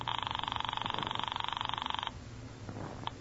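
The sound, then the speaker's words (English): A telephone rings upstairs, a rapid buzzing trill held steady for about two seconds before it cuts off. Faint, low rustling follows in the quiet afterwards. “It's ringing. I can hear it upstairs.”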